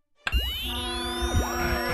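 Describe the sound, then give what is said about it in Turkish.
Cartoon sound of a radio dying as its battery runs out: a sudden springy boing followed by wobbling, swooping tones that warble up and down before settling into a sustained ringing. “Aa, radyonun pili bitti sanırım.”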